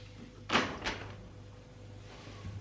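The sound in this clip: A door opens with two quick, sharp clunks close together, then a faint low hum continues.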